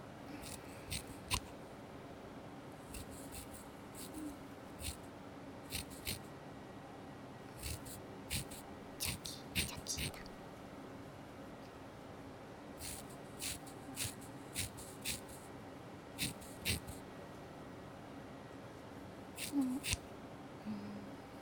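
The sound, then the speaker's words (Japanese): Scissors trim someone's bangs with many short, crisp snips that come in irregular clusters and single cuts. The snips are faint and separated by quiet, soft rustling. “前髪を整えますよ。お目目にもうかかってしまっているんですね。”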